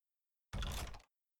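A sliding door being opened: one short rumbling slide lasting about half a second, with silence before and after.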